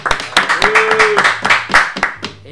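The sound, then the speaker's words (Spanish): Loud clapping from a small group for a guest rock band, with sharp, uneven hand claps in quick bursts that keep going steadily throughout. “Un aplauso. La banda.”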